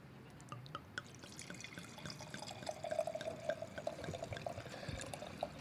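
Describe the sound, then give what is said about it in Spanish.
Red wine from the western Duero being poured into glasses: a steady liquid trickle with a clear ringing tone that holds through the pour, over faint drips. “es un vino que nos va a encantar como su poesía, y lo voy a servir ahora”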